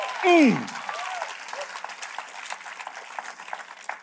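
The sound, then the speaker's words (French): A church audience gives an ovation to Jesus. A brief, loud, falling vocal cry opens, then sustained applause follows, with many hands clapping steadily and voices mixed in. “Vous vous donnez une ovation au Seigneur Jésus.”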